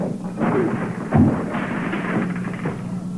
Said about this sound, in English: what's that? A lion. Maybe a lioness.